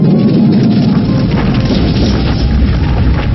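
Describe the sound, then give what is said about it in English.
Loud, roaring crash of a Mudslide earth attack sound effect in a creature battle video game: a dense, continuous rumbling rush that holds steady at full strength for the whole clip. “Select the targets. Foe Dormanoid and Foe Aparition. Kragulum used Mudslide.”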